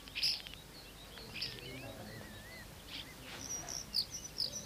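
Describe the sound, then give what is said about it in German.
Starlings chirp in a garden: a few short, high chirps and a thin, wavering whistle, faint over a low, quiet background with no voices. “Die Starre zwitschern. Ganz weiß ist der Garten.”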